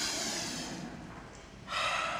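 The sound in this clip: A deep breath taken during a sermon to an audience, faint, airy hissing with one long breathy stretch followed by a second rush of air near the end, and no speech over it.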